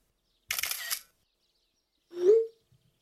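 Camera shutter sounds as photos are taken of a house with a fireplace: two short, crisp bursts separated by a pause of about a second, with the second burst carrying a brief tonal whir.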